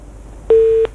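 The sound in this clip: Busy tone as a telephone call is cut off: a single loud, steady electronic beep lasting about a third of a second, standing out sharply against faint background hiss.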